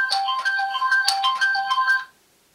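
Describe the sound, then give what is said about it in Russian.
Incoming call on a mobile phone: a bright electronic ringtone melody of quick repeating tones plays steadily for about two seconds and then cuts off, heard alone with no voices. “Вот, прошла минута, перезванивает.”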